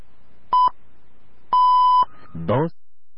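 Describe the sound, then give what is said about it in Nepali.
Radio time-signal beeps marking 10 AM: a short, clear, high electronic tone, a pause, then a longer tone of the same pitch, followed by a brief voice. “साहिनो समय सूचक अहिले बिहानको 10 बज्यो, it's 10 AM।”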